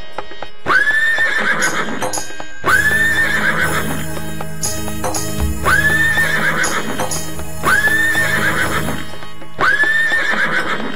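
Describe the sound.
Repeated horse whinnies with clip-clop hoofbeats, set in a Hindi folk devotional song about riders galloping on horses; several high, bright neighs recur at fairly even intervals over a steady droning backing.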